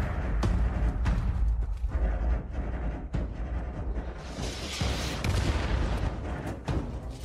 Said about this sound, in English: I wonder if the shooting's better, because it's never been great.